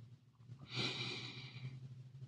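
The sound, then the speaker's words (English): A single deep breath drawn in as a soft, airy inhale, faint over a constant low hum. “So, like, let's just take a deep breath.”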